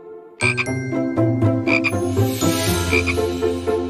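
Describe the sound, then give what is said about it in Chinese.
Frog croaking heard alone in a run of many loud, rapid, throaty croaks with a buzzy, harmonic tone, repeating steadily throughout. “青蛙耶。”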